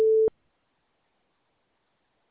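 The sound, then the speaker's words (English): A voicemail system's recording tone: one short, steady, mid-pitched electronic beep lasting about a quarter second, followed by silence. “You have reached the voicemail system. Please leave your message after the tone.”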